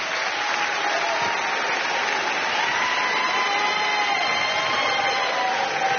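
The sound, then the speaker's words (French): A studio audience gives an ovation at a live concert, a thick, unbroken wash of clapping that holds at a constant, full level throughout. “Une nouvelle ovation pour Stéphane Escher en direct du studio 104 de Laila”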